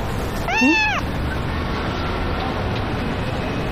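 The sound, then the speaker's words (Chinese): A cat meows once at a hotel front desk during check-in. The short, high-pitched cry rises and falls over a steady low background hum. “先生，您的猫啦？”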